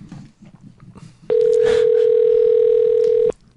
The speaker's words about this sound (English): All right, so we're dialing.